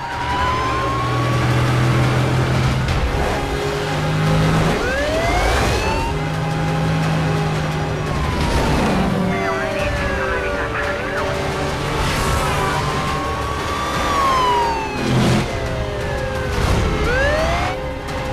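Police car sirens wail in pursuit of a stolen silver Charger speeding through heavy downtown traffic in Las Vegas. Several sirens sweep up and down and overlap, continuous and loud over a dense traffic rumble.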